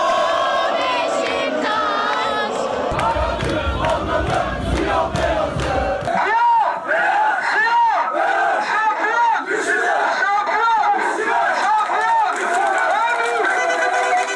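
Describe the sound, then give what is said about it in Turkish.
Football fans of Beşiktaş chant slogans en masse at a street championship celebration where flares are lit, a loud, continuous roar of many voices with rhythmic, repeated chant phrases and a heavy low rumble in the first half. “Ancak şampiyon Beşiktaş'ın evinde meşaleler yakıldı, çarşıda sosyal mesafe kalmadı. Atılan coşkulu sloganlarsa yüzlerde olması gereken maskeleri unutturdu.”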